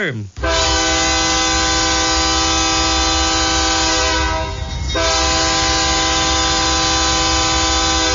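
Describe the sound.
A train horn blares loudly as a train passes, a sustained multi-tone blast held almost unbroken for several seconds, with only a brief dip partway through.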